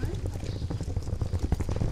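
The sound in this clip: A wheeled suitcase rolls over the cobblestones of the Engadin village of Sent, making a continuous low rattling rumble broken by irregular clacks and bumps.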